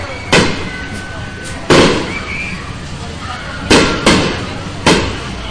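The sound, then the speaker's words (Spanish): Stick rockets launched at a town patronal festival in Antiguo Cuscatlán: five sharp, loud cracks at irregular intervals, each with a brief rumbling tail, over a steady wash of background noise. “Y ya están lanzando los cohetes de vara. Se alcanzan a ver, fíjate.”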